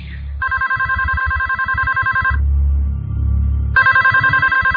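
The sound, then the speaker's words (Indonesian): A telephone rings in two long, loud electronic trilling bursts separated by a short pause, with a low hum running underneath. “telepon itu berbunyi lagi. Aku yang mengangkatnya lagi.”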